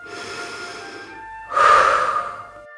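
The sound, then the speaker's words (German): One slow deep breath in and out during a guided relaxation exercise: a long soft airy inhale, a short pause, then a stronger, breathier exhale, with faint steady tones in the background. “Atme einmal tief ein und wieder aus.”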